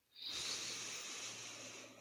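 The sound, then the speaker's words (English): A single long inhaled breath, a steady airy hiss that swells quickly and holds for nearly two seconds, heard alone without talk. “we'd like to invite you to drop in and take a breath with us. Inhale.”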